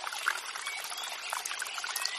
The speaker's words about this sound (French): Le doux cliquetis de l'eau vous berce et vous ressource.